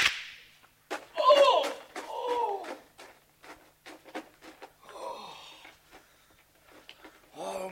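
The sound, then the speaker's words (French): Gunshots in a French radio drama, a bullet piercing Nick Carter's hat as he fires back: many sharp, cracking shots in quick succession, with voices heard between them. “Une balle vient percer le chapeau de Nick Carter qui riposte.”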